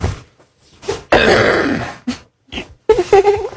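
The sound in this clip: A man clearing his throat loudly in a few rough bursts, one a long harsh rasp, with brief pauses between them and no speech.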